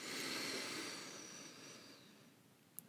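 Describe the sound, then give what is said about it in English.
Faint, deep breath in through the nose during a guided relaxation, a soft airy hiss that gradually fades away. “Go ahead and take a deep breath in through your nose.”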